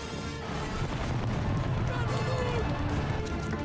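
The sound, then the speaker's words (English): Rumbling, crashing collapse of an underground tunnel roof as supports are smashed during a chase. A dense, continuous roar of falling debris with heavy low booms runs throughout. “Mitchell crashes through some supports, and the roof starts to cave in on Bond.”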